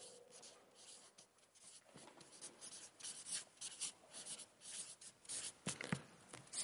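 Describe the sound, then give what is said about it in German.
A pen writes a single keyword on paper, making faint, soft scratching strokes in an irregular rhythm. Brief pauses fall between the strokes, and there is no speech. “Also schreiben wir, ich schreibe einfach nur das Stichwort Vorbereitungszeit”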